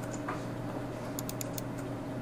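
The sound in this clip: Clicks of a computer mouse, a few quick, sharp clicks bunched close together over a steady low hum.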